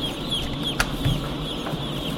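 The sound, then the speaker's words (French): Chicks in a crowded poultry house, twenty to the square metre, give thin, high peeps scattered over a steady, dense background noise. “Aujourd'hui, les poussins courent, mais dans quelques semaines, une fois qu'ils auront grossi, ils ne pourront plus vraiment bouger. Ils sont 20 par mètre carré.”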